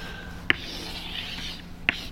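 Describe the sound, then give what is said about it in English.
Chalk scratches across a chalkboard as a tree diagram is drawn, soft continuous scraping strokes broken by two sharp taps. “I'm gonna do this on the chalkboard, so like if anyone wants to take a video of it, that's okay, because it won't show up on the audio recording. So I'm first going to draw a picture of the tree”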